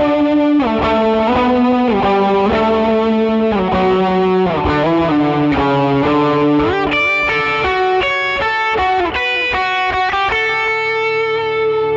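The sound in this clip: Electric guitar played through a clean drive overdrive setting, a crisp, lightly driven tone rather than heavy distortion, ringing out a continuous run of sustained notes and chords at a steady, loud level.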